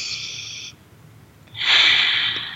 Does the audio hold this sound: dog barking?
no